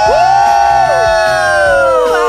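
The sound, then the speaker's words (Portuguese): Crowd cheering and shouting loudly, with sustained whoops and yells throughout. “Achei que você ia falar, cadê o grito da galera?”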